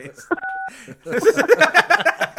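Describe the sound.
A short two-note phone keypad beep, accidentally left in an audio edit, cuts in briefly before voices talk and chuckle.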